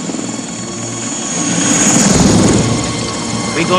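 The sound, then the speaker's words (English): A Russian military helicopter hovers, its rotor and engine giving a loud, continuous droning whir that swells slightly midway. A voice speaks briefly over it. “A Russian chopper hovers.”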